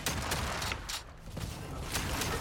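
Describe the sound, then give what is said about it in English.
Shotgun fire in a video game rings out as a rapid string of loud, harsh blasts, one after another with little pause between them, filling the whole moment. “I'm blasting him with the shotty, though.”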